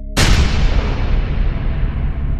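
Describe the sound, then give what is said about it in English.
Bomb blast in Muzaffarpur: one sudden, loud explosion with a sharp onset, followed by a deep rumbling tail that slowly fades, with nothing else heard. “Breaking news! Bomb blast in Muzaffarpur! Two dead! Suspects still wanted!”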